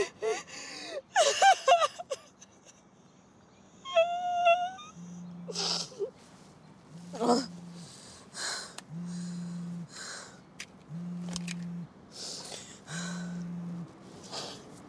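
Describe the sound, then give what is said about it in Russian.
A woman cries while sitting at the wheel of a car, with shaky gasps, sobs and whimpers at first, then quieter breaths over five low buzzing pulses spaced about two seconds apart. “Кэндалл плачет за рулем.”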